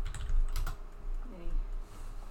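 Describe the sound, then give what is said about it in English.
Typing on a computer keyboard as a name is entered: a few quick bursts of clicking keystrokes, bunched at the start and again near the middle, with quieter gaps between and a last brief tap at the end. “I will type it.”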